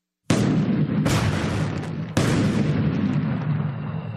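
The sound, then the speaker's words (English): Booming airburst detonations of a weapon, with blast and shockwave: three sharp, heavy onsets, each trailing into a loud, sustained roaring rumble. “This airburst detonation vastly increases the weapon's destructive range. What we're doing is we're maximizing the blast, the shockwave, if you will.”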